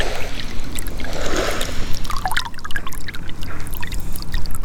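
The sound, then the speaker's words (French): Water trickles slowly into a salt marsh pan as it is refilled, a steady, continuous gurgle and dribble with no voices over it. “c'est pas bon parce que l'évaporation n'a pas le temps de se faire. Donc c'est vraiment, l'eau circule tout doucement. Remise en eau d'un œillet.”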